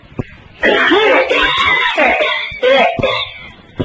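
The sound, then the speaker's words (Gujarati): A man's voice imitating the harsh, hacking cough of an old man in a cinema, a few loud, raspy, strained bursts broken by short pauses. “TB થઈ ગયો, એમ ઉધરસ ખાયો.”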